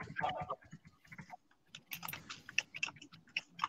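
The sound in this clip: Computer keyboard typing, many quick key clicks in irregular bursts with a short pause near the middle, loud and alone.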